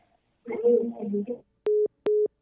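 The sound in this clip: Busy tone on a telephone line after a call drops: a brief voice, then two evenly spaced, short, level beeps and the start of a third.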